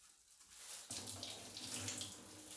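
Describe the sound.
Water rushing to flush away urine, beginning abruptly after a quiet start and continuing as a steady, full, hissing gush. No talking is heard.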